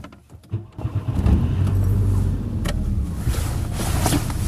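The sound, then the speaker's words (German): A car drives along on the way to a lake. After a few clicks and handling noises at the start, the engine settles into a low, steady rumble with some road noise. “So, also ich bin jetzt auf dem Weg zum See. Ich fahre noch so gut 10 Minuten”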